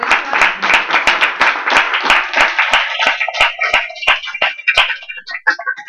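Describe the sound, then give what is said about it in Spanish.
Applause from an audience at a solidarity event on a live radio stream, many sharp hand claps in a dense, steady patter that thins into scattered, separate claps toward the end. “Gracias, un aplauso por esta.”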